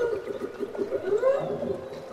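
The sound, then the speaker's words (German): Whale song recorded off the coast of Alaska: continuous, moaning mid-pitched tonal calls that waver and glide, with faint higher overtones above them and a steady level throughout. “An der Küste Alaskas nahm er den Gesang der Wale auf.”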